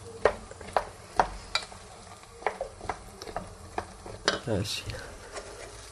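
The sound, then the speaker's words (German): Food fries in a pan while being stirred: a utensil strikes and scrapes the pan in many sharp, irregular clinks over a soft, continuous sizzle. “ich werde das jetzt erstmal braten.”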